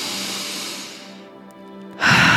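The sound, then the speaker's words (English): Slow, conscious breathing during a guided relaxation exercise, in through the nose and out through the mouth. A soft, airy breath fades away over a faint sustained tone, then a louder rush of breath swells at the end. “we're just starting with that nice continual conscious breath in through the nose, out through the mouth.”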